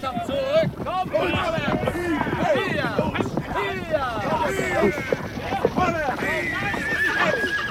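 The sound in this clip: Several horses whinny repeatedly and clop their hooves as they refuse to cross burning grassland, with high, wavering neighs overlapping one another above a continuous, busy clatter of hooves.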